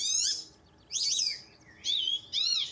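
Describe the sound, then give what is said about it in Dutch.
White-faced whistling duck calls: four bursts of high, clear whistles with wavering pitch, separated by short pauses over quiet background noise. “En dit is White-faced Whistling Duck.”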